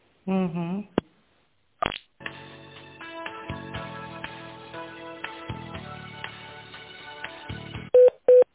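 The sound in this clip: A telephone call is transferred: after a brief voice and a click, a long stretch of electronic line tones and clicking runs on, ending in two short, steady beeps.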